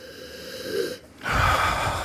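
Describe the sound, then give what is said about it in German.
Sniffing a dark beer to take in its roasted aroma with hints of peat smoke: two drawn-out nasal inhales, a softer one and then a louder, fuller one after a brief pause. “Mach mal, mach mal deine Augen zu und riech rein.”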